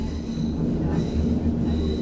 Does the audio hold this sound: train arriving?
yes